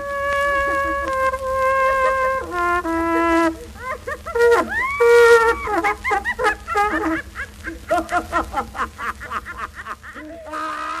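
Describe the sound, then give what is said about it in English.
A 1922 OKeh Laughing Record, recorded in Germany: a few sustained cornet notes play, then break off into bursts of hysterical laughter that turn choppy and rhythmic and carry on to the end. “it's the sound of a cornet being interrupted by a hysterically laughing woman who is joined by a hysterically laughing man”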